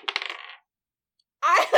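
Dice clatter on a table during a tabletop role-playing game: a quick rattling run of small hard clicks, then, after a short silence, a second brief burst of clatter.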